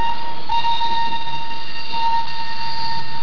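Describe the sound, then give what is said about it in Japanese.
A train runs along a railway with a steady, unbroken rumble of wheels on track. Thin sustained whining tones sit above the rumble, and the level stays even throughout with no voices. “鉄旅音旅は毎週こんな鉄道の音で盛り上がります”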